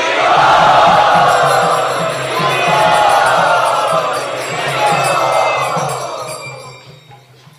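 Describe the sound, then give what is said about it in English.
Crowd at a Gaur Purnima gathering enthusiastically chanting Hari Bol, a loud, dense mass of voices rising and falling in a few broad swells and tapering off at the end. “Let us very, very enthusiastically welcome them by raising our arms and chanting Hari Bol.”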